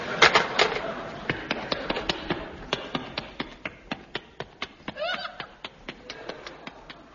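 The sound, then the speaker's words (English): Running boot footsteps taken from an old, scratchy sound-effects record: many sharp, evenly spaced footfalls in a quick, steady rhythm, fairly faint and heard alone without voices. “Those running boots are a repeat of the running boots you heard in Those Were the Days”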